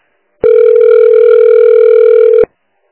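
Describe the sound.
A telephone call goes unanswered: a single steady electronic phone tone sounds alone for about two seconds, then stops, with silence before and after.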